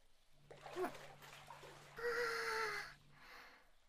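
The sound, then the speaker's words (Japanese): Hot water is poured over the body before getting into a bath, at a bathing spot with a washing area. After a brief voice, a splashing gush runs for about a second and then stops. “早くお湯に浸かりたいところですけど、まずはしっかりかけ湯をして。”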